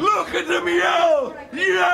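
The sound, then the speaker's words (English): A crowd yells and bellows in Atlanta in a theater audience sharing the rage of a play. Loud, overlapping shouting voices carry on throughout, with a brief dip before the yelling swells again. “They're yelling in Atlanta. Let's go look. Look at them yell.”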